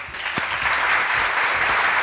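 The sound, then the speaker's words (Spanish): Applause greeting an invited guest: a dense, continuous patter of many hands clapping at an even, fairly loud level throughout, with no voices over it. “Fuerte el aplauso, viejo.”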